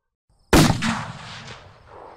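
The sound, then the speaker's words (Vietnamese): A single loud explosion from a scheduled blast, set off roughly once a month and heard from far away: a sudden sharp boom bursts in, then rumbles and slowly fades over about a second and a half, with no voices. “Chúng tôi đứng trò chuyện thêm được tầm 15 phút thì một tiếng nổ lớn vang lên.”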